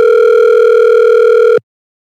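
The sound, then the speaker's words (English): Ringback tone of an outgoing telephone call: one steady, buzzing tone lasting about one and a half seconds, then an abrupt cutoff into silence. “Sorry, I'm trying to figure out how to maneuver all this. It's ringing.”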